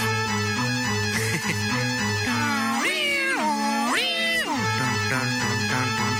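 A cat meows in a video game: two drawn-out meows whose pitch swoops up and back down, standing out against a steady tonal background.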